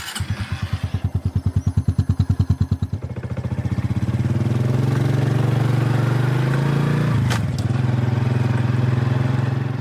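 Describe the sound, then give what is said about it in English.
Honda 125 agricultural motorcycle engine, heard alone: rapid, even chugging pulses for about three seconds, then a loud, steady running drone with a brief dip late on. “It's a massive beast, a Honda 125. It's a bit of an ag bike, but it's good because it's sort of incognito when I'm riding around farms.”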